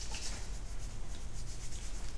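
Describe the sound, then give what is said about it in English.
Hands rub briskly together in a breathing and energy exercise, a continuous soft, hissing friction sound that stays faint and even throughout, with no talk. “if you rub your hands together like this”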